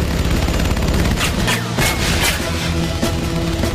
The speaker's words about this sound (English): They open fire on the motorhome as Bix speeds away. Oh, man. No! Dozens of bullets puncture the old motorhome.